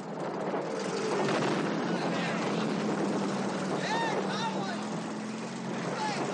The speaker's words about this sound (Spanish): El Sherman se pone en marcha.